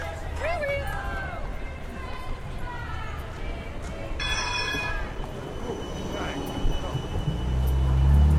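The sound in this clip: A tram passes at a tram stop on a city square during a street demonstration: steady rolling rumble, a brief high tonal squeal midway, then a heavier low rumble building at the end, with people talking throughout.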